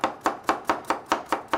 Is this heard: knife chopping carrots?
yes